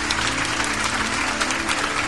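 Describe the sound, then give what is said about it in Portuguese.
Church audience applauding for the Lord Jesus, a dense, continuous roar of clapping that holds steady and loud throughout. “Vamos aplaudir mais o Senhor Jesus.”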